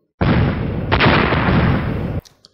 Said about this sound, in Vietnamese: Một loạt tiếng nổ vang lên